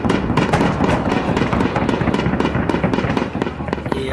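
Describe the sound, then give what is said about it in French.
Gunfire from a US Army C-130 aircraft firing from the sky over Baghuz: many loud, sharp cracks and bursts come in fast, irregular succession for the whole clip, with no talk. “Dans le ciel de Barouz, le bombardier C-130 de l'armée américaine ouvre le feu.”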